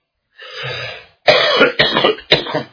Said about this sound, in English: Oh, my head. Kills my head to cough.